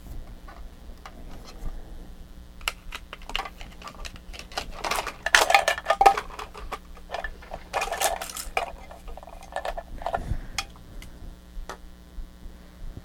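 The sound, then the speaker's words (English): A child bangs and clatters a spoon on dishes in many irregular, faint clinks and taps that grow busier in the middle and thin out toward the end. “Oh, you like that, don't you? A spoon? Is that a funny spoon?”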